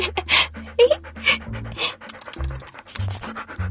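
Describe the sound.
A dog panting in quick, breathy puffs, a steady run of many short breaths at a fairly loud level, with no talking.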